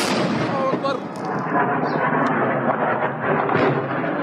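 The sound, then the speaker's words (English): Artillery fire and bombardment rumble through Sudan's capital during fighting between the military and a paramilitary force: a dense, continuous wall of loud, low booming and crackling blasts that barely lets up. “Residents in Sudan's capital are sheltering inside their homes, trying to protect themselves from the bombardments and artillery fire outside.”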